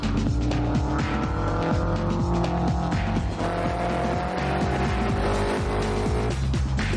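Race car engine roaring as it is driven fast around a circuit with a sharp turn, a loud, steady, sustained drone with shifting pitch throughout, no voices.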